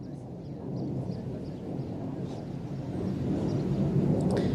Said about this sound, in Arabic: مقاتلة حربية إسرائيلية تحلق في هذه الأثناء على علو منخفض فوق مدينة صور ومنطقة صور